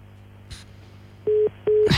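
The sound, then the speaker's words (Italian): Telephone busy tone after a call line drops: two short, steady mid-pitched beeps, evenly spaced and fairly loud. A brief soft click comes before them. “direi che è caduta la linea”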